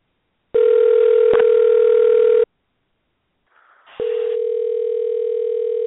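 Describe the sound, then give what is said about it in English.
Telephone line tones as a call is placed: a steady electronic tone holds for about two seconds, then silence, a brief softer burst, and another sustained tone that runs to the end. “Okay, well, let me reach out. Drum roll, please. This is dialing.”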